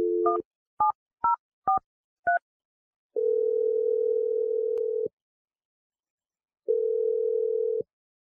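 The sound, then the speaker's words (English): A telephone number is dialed: five short keypad beeps in quick succession, then two long steady tones separated by a pause, all clean with no other sound. “I'm ready to dial Teddy's number.”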